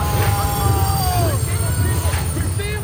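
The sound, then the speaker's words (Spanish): A locomotive train arriving, with a steady low rumble of rolling wagons and thin, high-pitched wheel squeal tones running throughout, one of them sliding downward midway. “Y sus habitantes vieron a José Arcadio II y Aureliano Triste, saludando con la mano desde la locomotora”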